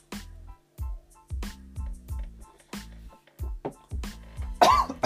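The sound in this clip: A person coughs in a long string of harsh, choking bursts after something went down the wrong pipe, mixed with throat clearing, the final cough the strongest.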